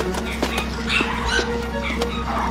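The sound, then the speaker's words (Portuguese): Dogs bark and yip in a dubbed film scene, giving a few short, sharp calls over a constant low hum and busy background noise. “O que estão latindo? São cachorros. É claro que eu sei que são cachorros.”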